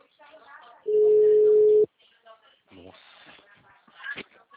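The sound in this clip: A phone busy tone follows a dropped call: a single steady electronic tone lasting about a second, set between stretches of conversational speech.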